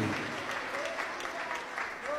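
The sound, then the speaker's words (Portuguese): A church audience claps for Jesus during worship, a thick, even wash of many hands that holds steady throughout, with a faint voice just audible underneath. “Palmas para Jesus.”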